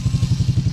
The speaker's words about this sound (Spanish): Olímpica Estéreo, prepárate para ser el dueño de una Suzuki DR150 ABS 0 kilómetros. Una moto con diseño aventurero, suena más o menos así.